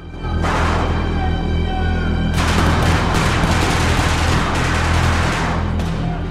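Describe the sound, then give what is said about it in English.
Special forces fire into the dark while storming a building at night after throwing a grenade in ahead of them. The loud, dense rattle of many shots surges sharply about halfway through and stays sustained. “special forces leave a helicopter, then storm a building, hurling a grenade in ahead of them. They fire into the dark.”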